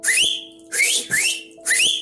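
A person whistles four short, bright notes, each sliding upward in pitch. The notes are loud and clear, separated by brief pauses, with no talking.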